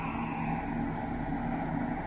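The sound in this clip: Spaceship braking rockets fire at quarter power in a steady, dense roar that holds an even loudness throughout, with no breaks or voices.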